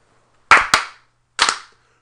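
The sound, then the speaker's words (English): Three sharp, loud hand claps ring out alone against silence as a slow clap. The first two come close together, and the third follows after a longer pause. “Well, is it time for a slow clap?”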